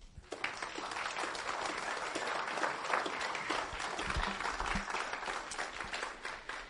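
A church audience applauds to welcome a pastor, a dense, steady burst of many hands clapping that holds evenly throughout.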